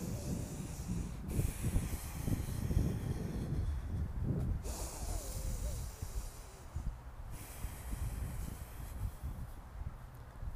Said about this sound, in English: So inhale long, deep through the nose.